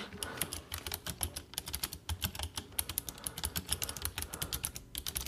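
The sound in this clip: Rapid typing on a computer keyboard: many quick, fairly even keystrokes clatter in a steady stream, with no talking.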